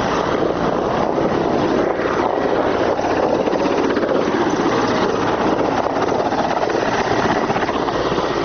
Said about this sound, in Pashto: زموږ پر سر د افغان ځواکونو دریغه جنگی می 15 هلیکوپټر هم ګرځي